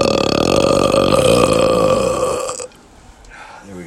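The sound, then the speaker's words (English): A loud, drawn-out human burp lasting over two seconds, rough and resonant at a fairly steady pitch, before cutting off into near quiet. “The obligatory burp.”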